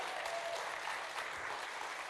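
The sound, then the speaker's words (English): Church audience applauding and cheering as people are welcomed up to give testimonies, a dense steady roar of clapping with cheers mixed in that holds at full strength throughout. “Keep cheering, keep cheering, keep cheering.”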